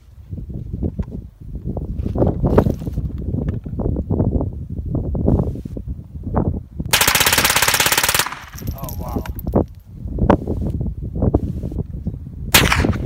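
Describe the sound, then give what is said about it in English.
Guns are fired on a shooting weekend in Arizona, with many sharp, loud shots in rapid strings and one dense burst of sustained automatic fire midway. “I was visiting a friend of mine in Arizona, and I think this 18 seconds sums up the entire weekend.”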